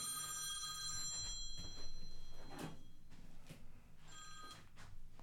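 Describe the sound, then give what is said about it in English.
A telephone rings in two bursts of bright, trilling bell tone separated by a pause of a few seconds, with a few soft clunks and knocks in between. “excuse the phone ringing”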